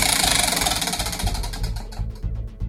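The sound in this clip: Rapid ratcheting ticks of a prize wheel spun in a pyramid game show, the clicks spreading out as the wheel slows toward the end.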